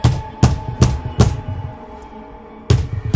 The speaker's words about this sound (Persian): با مشتهای گره کرده به در کوبید